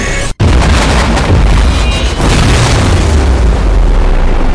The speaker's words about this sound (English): Shells scream out of the massive quick-rolling smoke plumes, cutting through the air and burst via timer.